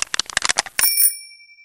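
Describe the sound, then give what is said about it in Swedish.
A short jingle for a climate-smart tips segment: a quick run of crisp clicking beats, then a bright bicycle-bell ring that fades out over the final second. “Så jag tycker bara vi kör jingeln.”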